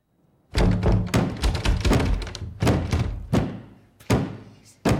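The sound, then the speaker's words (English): A door rattling violently, a rapid run of loud, heavy thuds and knocks in irregular bursts separated by short pauses, with no voices. “The doorknob turns slowly. The door rattles violently.”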